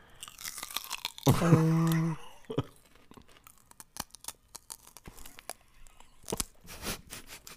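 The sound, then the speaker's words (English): Celery being chewed: many sharp, crisp crunches and bites come in an irregular series after a brief voiced sound near the start. “I'm just going to have a celery here. Well, that's going to be loud.”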